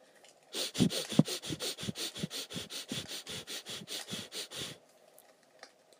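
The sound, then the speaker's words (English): Short, quick breaths in and out during a breathing exercise make a fast, even train of many sniffing puffs. The breaths run for about four seconds and stop abruptly, with no talk. “what it looks like is just short, quick breaths, both in and out, like this.”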